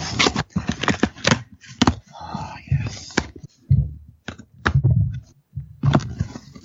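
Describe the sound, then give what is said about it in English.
Knife slicing open a package, the blade a knife nicknamed the Little Pecker, giving a series of scratchy, rustling bursts separated by brief pauses. “he's got this knife he calls the Little Pecker. That's what I'm cutting it open with.”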